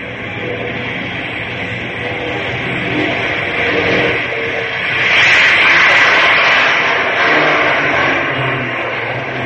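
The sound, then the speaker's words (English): An airplane engine revs for takeoff on the runway, a loud, steady roar that swells partway through and holds. “Tell the skipper to put his seeing glasses on because I've got runway clearance. Okay, boy. Give her the gas.”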